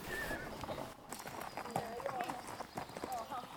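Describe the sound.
Hoofbeats of Gutti, an Icelandic horse being ridden: a quick, uneven run of clip-clop thuds, moderately loud under people talking.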